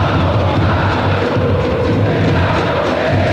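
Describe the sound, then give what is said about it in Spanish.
Stadium crowd chanting at a Chilean football match, a loud, dense roar of many voices holding a low, sung, droning chant that stays steady and unbroken for the whole stretch. “Así suena el ambiental, así suena el estadio.”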